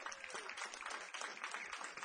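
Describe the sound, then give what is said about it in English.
Faint audience applause at a live music show: many dense claps blend into a steady, low-level patter with no voices over it. “Give him a round of applause for that.”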